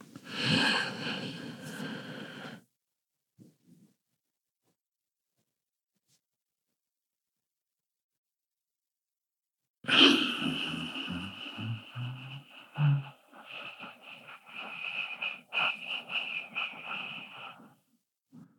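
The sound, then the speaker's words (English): A slow, deep breath drawn in for about two seconds, then a long silent hold, then a slow, drawn-out exhale lasting several seconds, breathy and faint, done as a calming exercise for anger or sleeplessness. “That was slow, deep breath in. Hold the breath. Slow, deep breath out.”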